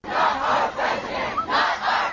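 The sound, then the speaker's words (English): Crowd of Berkeley High students and teachers chanting at a walkout protest against the president-elect, loud rhythmic shouts rising and falling in repeated swelling waves. “More than 1,000 Berkeley High students and teachers walked out of their classrooms in protest against the new president-elect.”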